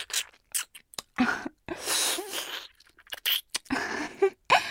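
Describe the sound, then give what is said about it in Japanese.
Someone eating ice cream, giving a series of short, irregular crunching and chewing bursts separated by brief quiet gaps, moderately loud and with no talk. “アイス食べてるだけだよ。”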